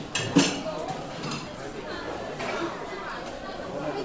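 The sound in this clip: Dishes and cutlery clinking at a hot pot area, a few light clinks rising over a constant murmur of crowd chatter as people talk nearby.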